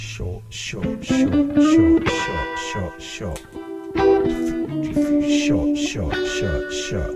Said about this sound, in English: Have a listen to this. I like doing reverb like this. Like that. Like really short.